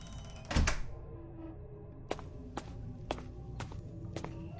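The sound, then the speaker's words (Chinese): A front door is locked with a single heavy thud. Then five quiet, evenly spaced footsteps tap across the floor into the living room. “杰克锁上大门，走进客厅，”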